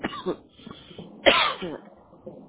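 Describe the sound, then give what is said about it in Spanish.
Coughing from a person with a recurring cough that comes on while talking: a few rough, harsh bursts with short gaps, the loudest one midway through. “Empiezo de hablar y en un ratito me empieza la tos.”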